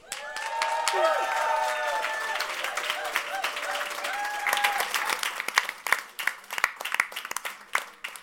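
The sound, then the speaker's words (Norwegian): A live studio audience applauds at a Norwegian talk show, loud dense clapping that holds for several seconds before thinning into scattered individual claps. “Det du pleier å si når applausen dør ut, eller hva det?”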